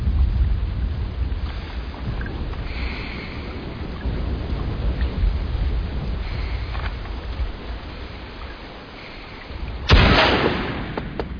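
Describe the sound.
A single sharp, loud rifle shot in a video game, fired at an enemy in a window, cracks near the end after a long stretch of low, windy ambient rumble.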